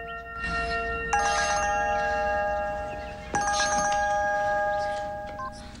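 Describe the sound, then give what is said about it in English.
A phone rings as a woman wakes with a start from a dream. Two bursts of bright, trilling ringing rise over a steady, sustained tonal background, and the second burst is slightly stronger. “Then her phone rings, and she reaches for it.”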